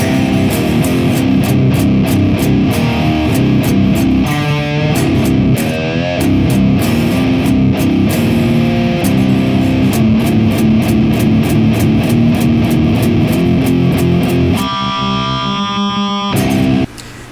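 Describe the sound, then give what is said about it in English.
Distorted electric guitar played through the Neural DSP Archetype amp plugin with an impulse response: a heavy, chugging riff of many rapid, tight hits that ends on a ringing sustained chord before cutting off. “if we compare that tone to what we would get using the same impulse response through the Neural DSP archetype of Bossy, it sounds like this.”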